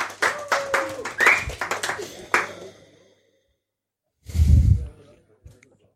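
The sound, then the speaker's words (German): A small group clapping for a woman serving wine at a tasting, brisk, uneven hand claps mixed with talk that fade out within about three seconds, followed by quiet and one brief low rumble. “Übrigens einmal bitte Applaus an die nette junge Dame, die uns hier die Weine verteilt.”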